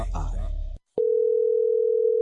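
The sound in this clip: A telephone tone on a call that is not picked up: a steady, unbroken mid-pitched hum, loud and constant, following a brief burst of speech and a short silence.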